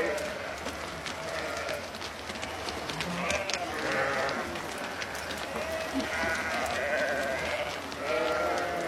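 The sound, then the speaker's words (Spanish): A flock of sheep bleats as it enters a pen in a meadow after being herded down from the mountains. Many overlapping bleats rise from a dense, noisy, shuffling background and continue throughout. “Las ovejas entran en el redil de la pradera.”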